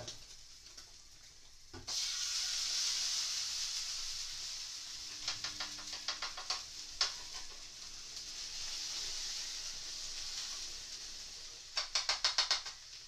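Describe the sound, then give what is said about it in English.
Water sizzles in an oily frying pan with tuna chunks: a steady bright hiss starts suddenly about two seconds in and carries on, broken by bursts of sharp crackling pops, a few in the middle and a quick run near the end. “I've managed to get water onto the frying pan, an oily frying pan, so probably I should have drained it a bit more”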